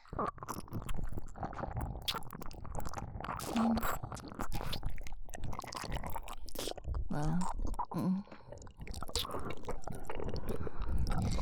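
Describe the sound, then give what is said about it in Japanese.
Close, wet kissing: many irregular lip and tongue smacks and squelchy sounds that continue throughout at a steady, fairly loud level. “やっぱり君の舌おいしい。君とのチューの虜になった。”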